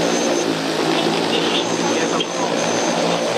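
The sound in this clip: Loud, steady whirring drone of an agricultural crop-spraying drone taking off, its rotors producing a dense, continuous buzz with a sustained tonal hum and no breaks.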